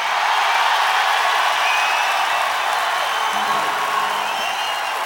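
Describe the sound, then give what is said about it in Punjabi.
A crowd at a live Punjabi show shouts and cheers in a loud, sustained roar. It stays dense and even from start to finish, with no breaks. “ਇੱਕ ਵਾਰੀ ਪਾ ਕੇ ਦਿਖਾ ਲਿਓ ਰੌਲਾ।”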